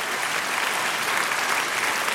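Audience applause, a dense and steady wash of many hands clapping at high volume for the full stretch, with no single claps standing out and no voices.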